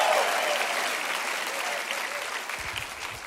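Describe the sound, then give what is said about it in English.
A church audience applauds and cheers for first-time visitors with dense, steady clapping that slowly fades toward the end. “Hey, church, can we make some noise for our first-time visitors at every single spot?”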